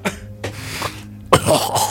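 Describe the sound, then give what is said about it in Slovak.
Coughing from a person: a run of several short, raspy coughs at uneven intervals, the later ones louder and denser, mixed with throat clearing. “Čo dnes všetci kašľate, to je hrozné.”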